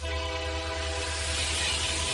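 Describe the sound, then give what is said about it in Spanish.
A Renfe train horn holds a steady, sustained tone over the continuous rumble of the passing train. It stays loud for the whole clip, with no voices. “Abriendo la noche con Renfe a 2000 por 1000. El futuro viene en tren”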